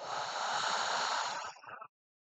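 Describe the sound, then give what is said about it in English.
A deep, airy breath exhaled steadily and loudly for about a second and a half, trailing off in a short fluttering puff before silence. “Three big breaths together. Here we go. Inhale. And exhale.”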